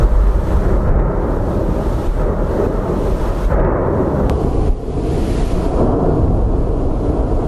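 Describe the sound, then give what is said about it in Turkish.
Deep, continuous roaring rumble from a Strombolian volcanic eruption, with lava flowing down the slopes and a large ash cloud rising. The sound stays loud and heavy throughout, broken only by one brief dip. “Yanardağın yamaçlarından lavlar akarken peş peşe meydana gelen Stromboli tipi patlamalar bölgede endişeye neden oldu.”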